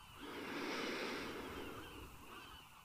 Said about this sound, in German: Ein letztes Mal atme tief ein.